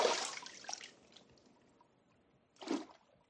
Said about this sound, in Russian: Струящаяся вода ручья.